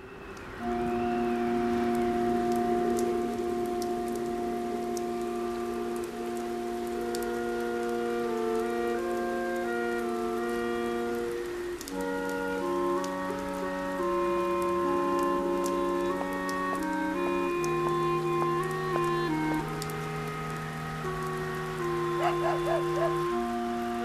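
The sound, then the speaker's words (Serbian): Heavy rain of large drops falling on a windy evening, a steady dense hiss that holds for the whole stretch beneath soft, sustained musical tones. “Te večeri je duvao jak vetar i padale su krupne kapi kiše.”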